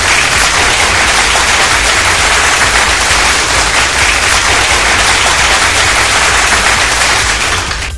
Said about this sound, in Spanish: Por cierto, un gran aplauso.